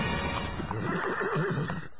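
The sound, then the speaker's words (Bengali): A horse pulling a carriage whinnies as the carriage arrives at a house: a long, wavering neigh, loud and steady over continuous noise, easing off near the end. “ঘোড়ার গাড়িতে এমনই সব কথা বলতে বলতে গন্তব্যস্থল সিভার্সে Mrs Saint ক্লেয়ারের বাড়িতে পৌঁছে গেলেন ওরা।”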